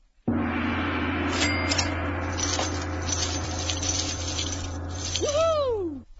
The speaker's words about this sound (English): But before we kick it off, let's do what we do so well. Let's pull a prosperity card for our listeners.